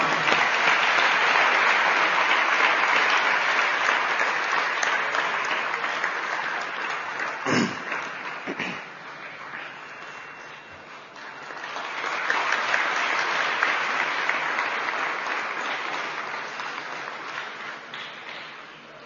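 Sustained audience applause at an achievement award ceremony: dense, steady clapping that thins briefly midway, then swells again before easing off toward the end.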